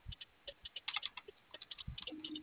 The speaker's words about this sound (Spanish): Estoy escribiendo